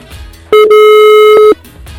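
Telephone line tone as a number is dialled to get through: a single loud, steady beep lasting about one second with a brief break near its start, heard alone against a faint background.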